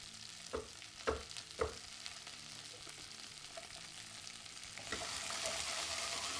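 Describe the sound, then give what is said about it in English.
Sausages and chopped onion fry in a pan as they are stirred and turned, giving a steady sizzle. Three sharp clatters sound early on, and the sizzling grows louder near the end. No one talks. “Alrighty, so we're mixing along here. We're getting everything going. We're turning the sausages.”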